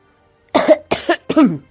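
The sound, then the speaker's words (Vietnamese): A light human cough in three short, throaty bursts, clear and alone against silence. “ho nhẹ một tiếng”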